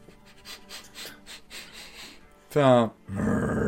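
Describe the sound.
A human voice imitates guard dogs growling. Soft breathy sounds lead into a loud, rough vocal burst, followed by a harsh, sustained snarl.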